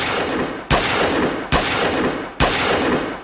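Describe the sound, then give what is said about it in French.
Loud shots from a Colt 45 pistol fired through the glass panel of an elevator, each sharp crack trailing into a long decaying tail, repeated at roughly even intervals. “L'un d'eux, Colt 45 à la main, tire à quatre reprises à travers la vitre du panneau gauche de l'ascenseur.”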